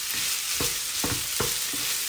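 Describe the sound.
A savoury rice dish is stirred and folded in a sizzling pan. Several scraping spoon strokes recur at a steady pace over constant loud frying hiss, with no voices.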